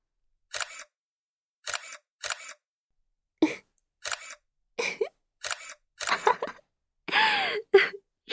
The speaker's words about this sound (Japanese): 写真撮っておこっか。